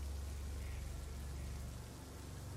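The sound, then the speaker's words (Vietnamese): Heavy rain pours down at night in a dense, even hiss over a low rumbling undertone. It is continuous and fairly faint throughout, with no other sounds. “Bầu trời đêm vẫn cứ mưa như trút nước.”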